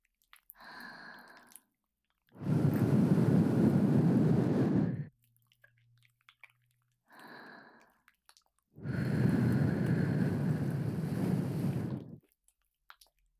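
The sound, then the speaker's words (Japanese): Soft breathy blowing into the listener's ears: two long, steady airy blows of about two and a half seconds each, each preceded by a shorter, fainter breath, with near silence in between. “お耳にもふうしてあげましょうね。”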